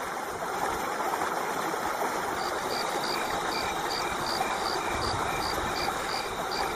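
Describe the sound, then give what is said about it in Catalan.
Forest ambience in the Sivans woods: a steady, even bed of insect buzzing with a repeating cricket chirp pulsing high above it and a faint low hum underneath. “Així sona el bosc de Sivans.”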